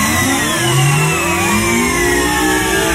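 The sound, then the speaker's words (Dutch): An engine-like sound effect for a supercomputer starting up: a loud, steady roar like a revving car engine, layered with whining tones that sweep upward throughout. “We starten de supercomputer nog eens op.”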